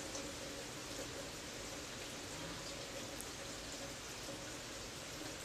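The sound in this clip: Rain falling as a faint, steady hiss that stays even throughout, with no distinct drops or other sounds standing out.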